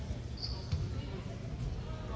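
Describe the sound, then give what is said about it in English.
A basketball free throw bounces a few times on the rim before dropping through during a playoff game, the soft ball knocks faint and partly buried under steady crowd noise. “This one takes a couple bounces and then drops. I counted about 5 bounces.”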